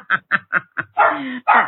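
A guard dog barking: four short, sharp barks in a quick even rhythm, followed by two longer, rougher drawn-out barks, loud and alone.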